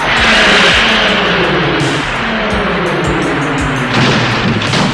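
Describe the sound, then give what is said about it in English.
A car engaging turbo boost gives a loud, dense, continuous engine roar that holds steady throughout, with a deep rumbling low end. “Don't touch turbo boost. Yes!”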